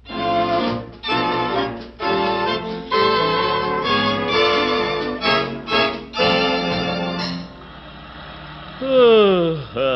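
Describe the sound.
Car engine sound effect from an old radio drama about a family's drive home, a loud droning motor with rhythmic surges and dips, ending in a falling whine.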